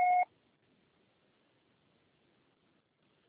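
An answering machine beep: a single clean electronic tone lasting about a quarter second at the very start, then near silence.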